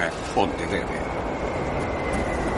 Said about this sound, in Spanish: Viene un tren en el otro sentido, es mejor que lo cojas.